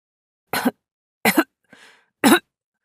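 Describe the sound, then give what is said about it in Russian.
Muffled coughing from a boy crouched behind a stove with his hand over his mouth: three short, sharp bursts, with a softer, breathy sound between the second and third, and no talk. “Но тут раздался приглушенный кашель, и я удивленно посмотрела по сторонам.”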